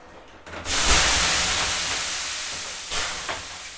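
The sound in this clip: Water thrown onto a hot sauna stove, with the room at about 100 degrees, bursts into a loud, abrupt hiss of steam. The hiss slowly fades over several seconds, with a couple of smaller surges near the end.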